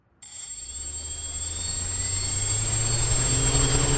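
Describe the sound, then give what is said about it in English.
Whirring buzz of a small radio-controlled quadcopter drone taking off. It starts abruptly with a loud, steady high-pitched motor whine over a low hum, and the sound gradually swells as the rotors spin up. “That is the sound of a small radio-controlled quadcopter, better known as a drone, taking off.”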